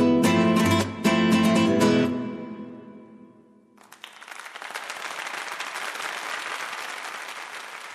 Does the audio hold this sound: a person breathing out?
no